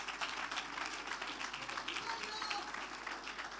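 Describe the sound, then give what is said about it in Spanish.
Congregation applauding in praise during a church celebration service, soft, dense clapping held at an even level throughout. “Fuerte ese aplauso de alabanza al Señor.”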